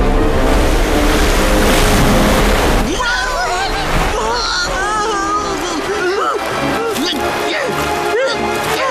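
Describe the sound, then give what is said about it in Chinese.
Rushing flood water roars as a loud, broad, steady noise for about three seconds, then continues more roughly while voices and other sounds rise over it. “啊，伙计们，那是什么声音？ 听起来就好像是 洪水。”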